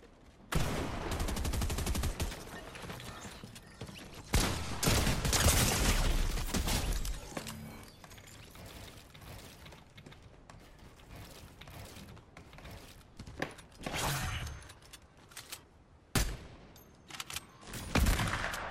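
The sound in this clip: Gunfire in a video game comes in loud, rapid bursts of shots separated by quieter stretches, with sharp mechanical clatter mixed in.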